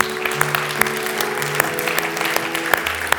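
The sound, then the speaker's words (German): Audience applause follows a talk on a Bible teaching programme. Fairly light clapping is marked by crisp individual claps at a steady pace over a low, constant hum. “Geben wir ihm einen Applaus.”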